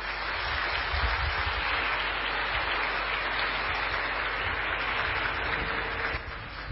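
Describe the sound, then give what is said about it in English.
Sustained audience applause welcoming a Buddhist monk before an evening talk on meditation, dense and even throughout, dipping slightly just before the end. “Please put your hands together. Welcome, Ajahn Brahm.”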